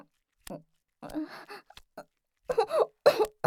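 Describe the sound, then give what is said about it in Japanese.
A person chokes and coughs in hot weather, giving a few short, harsh, irregular bursts with breathy vocal sounds between them. “むせてしまって。”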